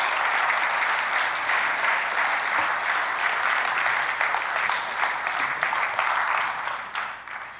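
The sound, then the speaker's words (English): An audience applauds as guests are welcomed to a stage, a dense, even wash of clapping that holds steady throughout and tapers at the very end. “Let's give them a hand, all right?”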